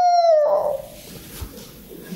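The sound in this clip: A human voice imitates a dog howling, giving a brief, clear howl that sags slightly in pitch and then fades into faint noise.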